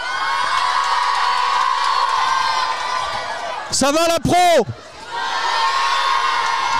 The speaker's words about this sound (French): Et pour vous le montrer, pour vous le prouver en tout cas, on va demander aux gens qui nous suivent dehors de faire du bruit s'il vous plaît.